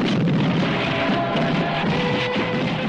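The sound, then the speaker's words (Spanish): Gunfire from a shootout spreading across a town in chaos: a loud, dense, continuous roar of overlapping shots and booming bursts that runs throughout without any clear pause. “El tiroteo continúa por todo el pueblo que se sume en el caos.”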